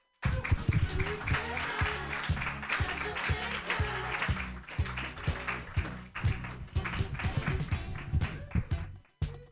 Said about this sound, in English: Clap more for Melina Best, everybody.